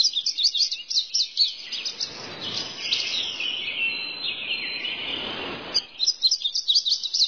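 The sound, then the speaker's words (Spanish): Birds sing in an Ecuadorian jungle: dense, high-pitched chirps and trills run throughout, with a busier, more continuous chattering stretch in the middle. The calls are clear and fairly loud, with no talk. “Los sonidos de las aves.”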